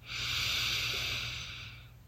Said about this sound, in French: Prenez un moment pour respirer profondément dans cette position pliée. Inspirez.